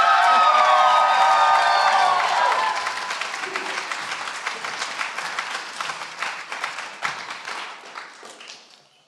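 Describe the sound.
An audience at a conference welcomes a pastor with loud cheering and whoops over dense applause, then the clapping thins out into scattered claps that fade away.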